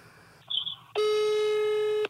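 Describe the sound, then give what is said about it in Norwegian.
A telephone call being placed to a newspaper to pass on a tip. A brief electronic blip comes first, then a single loud, steady ringing tone holds for about a second, with no talk over it. “skal vi bare ringe VG kjapt, da?”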